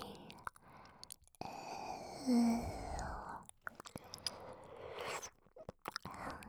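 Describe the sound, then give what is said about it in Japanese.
Quiet ASMR mouth sounds of licking and light biting: wet smacks and many small sharp clicks, with soft breathy whisper-like stretches between them. “念入りにペロペロして、口に沿って舐めたり、”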